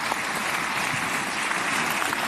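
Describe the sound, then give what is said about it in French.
Thunderous applause in tribute to hostages and their families, a dense, even roar of many hands clapping that stays loud and steady from start to finish. “Tonnerre d'applaudissements donc pour ces otages, leurs familles et puis l'homme du deal, Donald Trump”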